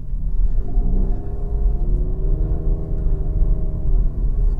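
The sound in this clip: A small car's engine pulls up a hill in second gear, giving a steady low rumbling drone with a humming engine tone that stays fairly even throughout, with no talk over it.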